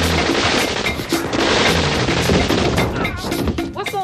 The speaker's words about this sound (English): It sounds like machine guns.